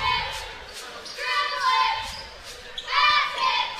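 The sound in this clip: A basketball is dribbled on a court floor during a game between Maryville and Chillicothe, its repeated bounces faint beneath a commentator calling the play.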